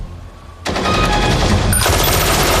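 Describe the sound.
Automatic gunfire in a radio drama hostage scene breaks out abruptly after a short quiet lead-in, then roars on as a loud, continuous rattling burst that grows heavier partway through.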